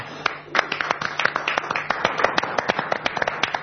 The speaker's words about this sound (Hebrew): כפיים.